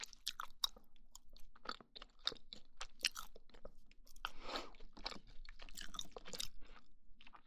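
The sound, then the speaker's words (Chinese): Crunchy bites and chewing of soft pumpkin toast, recorded with a dual microphone: many crisp, irregular crunches and wet chews at a quiet level, with no talk. “我发现这个麦克风录吃东西的声音，真的比那种双耳麦克风好听。”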